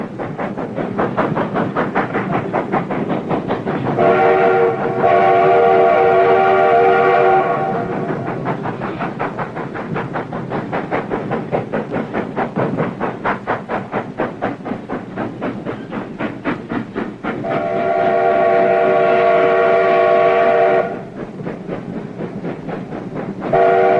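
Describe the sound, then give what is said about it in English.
A steam locomotive train passes with loud, steady rhythmic clatter and chugging, broken by two long, loud whistle blasts, the second well after the first, and a short blast at the very end. “American children today have never ridden a train drawn by a steam engine. But people still love the old trains.”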